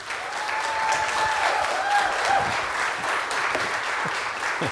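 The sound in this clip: Sustained applause from a morning church gathering welcoming a guest speaker to the platform, a dense, even wash of clapping that stays at the same level for the full five seconds.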